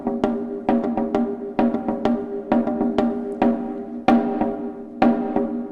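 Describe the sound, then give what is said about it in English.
A tumba, a cylindrical drum with a calf skin head, is struck with sticks rather than hands. Many crisp strokes fall in a lively, syncopated pattern, each with a sharp attack and a resonant, mid-low pitched ring, played alone without voices. “What we've chosen to use in this instance is a calf skin over a cylindrical drum called a tumba. Sounds like this.”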